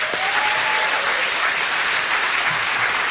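Steady, dense applause from a studio audience at a radio studio session featuring a band and choir. The clapping holds an even, loud level with no breaks.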